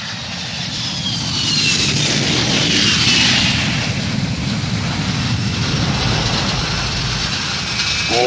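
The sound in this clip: A loud, steady airplane engine roar holds for several seconds, a broad, dense rumble with a faint high whine above it and no voices.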